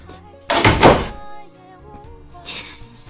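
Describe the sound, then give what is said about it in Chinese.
A door being shut as someone walks out, heard as a solid, heavy thunk of the door closing, followed later by a quieter, hissy noise. “他就这样走了，他关上了门。”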